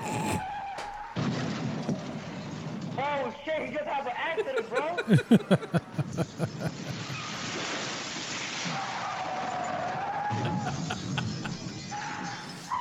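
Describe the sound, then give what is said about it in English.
Car tires skid with wavering, high squealing screeches that rise and bend in pitch, surrounded by rushing road noise. Voices talk over the noise throughout. “accident, bro! Accident! I don't know if he's playing, but it's an accident, bro! You hear that?”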